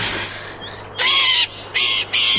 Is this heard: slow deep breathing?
no